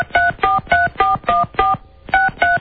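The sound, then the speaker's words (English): Eight touch-tone beeps sound as a telephone number is dialed. They come in an even rhythm, each a steady two-note electronic tone, with a brief pause before the last two. “let me try this stupid number one more time.”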